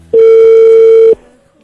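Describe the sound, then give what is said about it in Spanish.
A steady telephone line tone sounds while a call is being dialed. It is one loud, flat, unbroken tone lasting about a second, then cuts off and leaves a faint hiss. “A ver, le estamos marcando a Adriana en esta mañana.”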